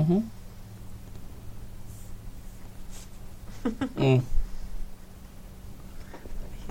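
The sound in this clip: A marker squeaks across a paper map as someone draws a bank on it, a few short scratchy strokes clustered mid-clip, while people talk around it.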